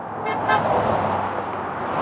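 Cars pass along a road in front of an operations center in Anchorage, making a continuous roadway hiss and rumble. Two short horn toots sound early on, and the traffic stays steady without voices.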